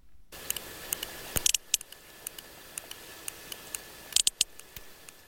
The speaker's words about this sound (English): Now that's the sound of a sperm whale from the eastern Mediterranean, a bit pacier, closer to the other dance mecca of Ayia Napa